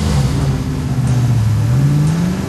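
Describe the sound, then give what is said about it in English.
A car engine accelerates as the car drives off, a loud, steady mid-range drone that dips slightly and then climbs in pitch toward the end. “Rock went to the passenger seat, with Lieutenant Boyd acting as his driver. Well? Drive.”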